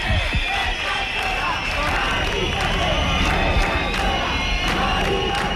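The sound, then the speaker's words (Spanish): Crowd of neighbours and protesters at an eviction on General Martínez Campos street in Madrid, a loud continuous mass of shouting voices with sharp bursts cutting through the din. “Según su versión, varias vecinas y manifestantes fueron gaseados mientras intentaban evitar el desalojo de Mari Carmen. Hasta ahora, este es el sonido en General Martínez Campo.”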